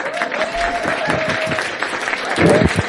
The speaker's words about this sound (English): Thank you for that great standing ovation.